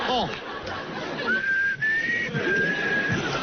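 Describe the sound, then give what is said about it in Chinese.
A person whistling inside an elevator: a thin, sustained, nearly level high whistle lasts about two seconds while people talk. “电梯里吹口哨容易漏水”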